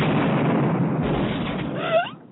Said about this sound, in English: right, the explosion.